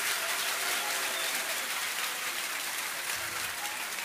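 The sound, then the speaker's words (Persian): Audience applause at a religious gathering, a dense, steady wash of many hands clapping at an even loudness throughout, with no break. “یه کف قشنگ ببین، یه جوری که من بدونم حال داری یه خورده دست بزنی.”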